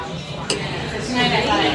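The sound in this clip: A knife and fork cut a fried green tomato on a plate: one sharp clink of metal on crockery early on, with soft scraping and handling noise around it.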